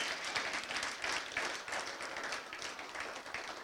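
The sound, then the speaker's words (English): A church audience applauds first-time guests during a service, with a steady, dense wash of many hands clapping that holds at an even level throughout. “First-time guests, come on, give them a big hand.”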